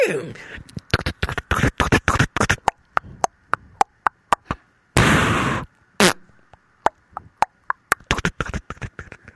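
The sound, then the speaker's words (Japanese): A performer vocally imitates a man riding a horse across a bridge, firing a gun and then farting, with many sharp popping bursts in quick series and one longer, rough, noisy blast midway. “馬に乗って橋を渡り、橋の上で銃を撃って、銃を撃った勢いでおなら出ちゃう男、みたいなのもやってまして”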